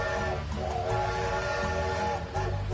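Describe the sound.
A train with a whistle: a rumbling train sound carries a steady, sustained whistle or horn tone that runs loud and unbroken through the whole short clip, with no talking.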